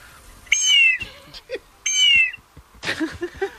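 A bird-call whistle meant to imitate condors and harriers sounds two shrill, wavering blasts that sag in pitch, with soft knocks and rustles between them.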